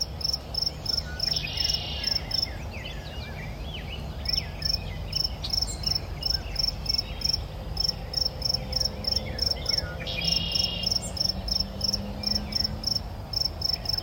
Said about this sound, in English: I took another walk in the woods, and here's just a bit more of that natural sound for some calm and peace.